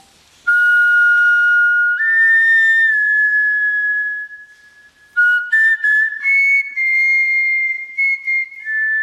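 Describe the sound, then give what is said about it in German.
A replica griffon vulture bone flute plays breathy, whistle-like tones: a long held note that steps upward, a brief pause, then a run of shorter notes ending on higher sustained pitches. “Aber weil es auch heute noch Gänsegeier gibt, hat man die Flöte nachgebaut. Und diese nachgebaute Flöte haben Flötenspielerinnen auch schon ausprobiert. Und das klang dann so.”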